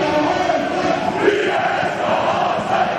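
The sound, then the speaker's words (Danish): AC Horsens football supporters at a local derby against AGF create a dense, sustained crowd roar of massed chanting voices that keeps a steady level throughout. “Masser af blæs på melodien her fra AC Horsens tilskuere”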